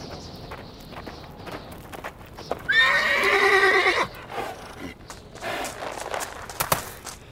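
A horse is urged to hurry, its hooves clip-clopping at a quick trot while it gives one long, loud, shrill whinny midway, then the hoofbeats carry on.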